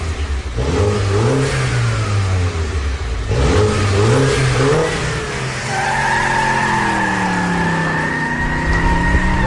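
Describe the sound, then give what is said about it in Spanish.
A car engine that has to warm up before it roars revs loudly throughout. Its pitch surges up and drops back several times, then settles into a steadier, higher drone in the final seconds, with no voices. “es un motor que tienes que calentar primero para que empiece a rugir, ¿no? Y empiece a sonar.”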